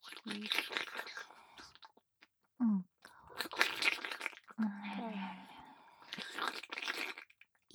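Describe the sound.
Crunchy food being bitten and chewed in several bursts of crisp, crackling crunches. Short low hums sit between the bursts, and the whole passage is fairly quiet.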